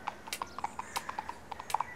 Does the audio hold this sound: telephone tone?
no